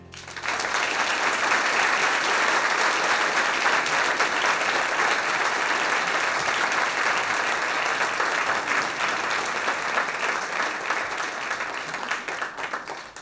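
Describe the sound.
Audience applause greets an award recipient coming on stage at a live music and talk show: a loud, dense, sustained roar of many hands clapping that holds steady for several seconds and eases off at the end.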